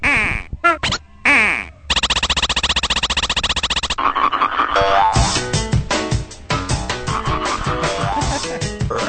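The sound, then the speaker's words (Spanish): Upbeat video game stage music from a level featuring a reggaeton-singing frog, in a paper-cutout visual style: dense, layered bright tones with a steady pulsing section, then a busier rhythmic passage, with no talk. “Vamos a escuchar un pedacito de un stage que es con una rana reggaetonera.”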